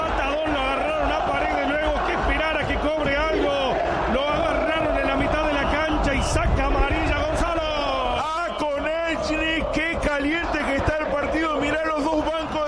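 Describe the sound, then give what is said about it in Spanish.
Boca Juniors fans chant in the stadium in Rosario: a loud, sustained mass of voices singing in unison, continuous throughout with steady energy and no pauses. “Se levanta el público en Rosario, no es la Bombonera, es el gigante de Arroyito. Esto es la hinchada de Boca que canta en los micrófonos de Cadena 3 Argentina.”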